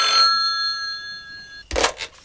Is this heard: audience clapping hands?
no